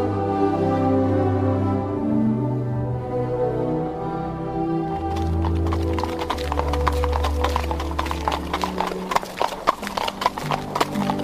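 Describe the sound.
Steady hoof clip-clop of a horse-drawn carriage crossing the moor. The sound enters midway over sustained music and continues as many evenly spaced clops.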